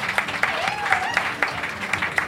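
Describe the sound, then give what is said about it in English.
A lone audience member claps in a steady, evenly spaced rhythm of single claps beneath a voice. “And out in the audience, you can hear Edith slowly clapping.”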